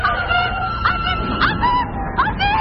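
A child crying and screaming inside a car as it loses control and crashes: several wavering, wailing cries that rise and fall, set over a steady low rumble.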